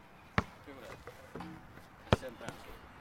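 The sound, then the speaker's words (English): A basketball dribbled after some air was let out, still very loud: two sharp, hard bounces plus a few fainter thumps, while people talk. “When I dribble this one, it's like. So loud.”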